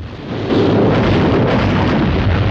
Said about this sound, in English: Chinese artillery guns open fire on the consort.